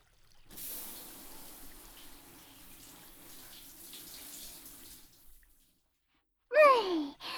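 Bathwater pours down to rinse someone off, a faint, steady, airy hiss lasting about five seconds before stopping. A short pause follows, then a brief breathy voiced sigh.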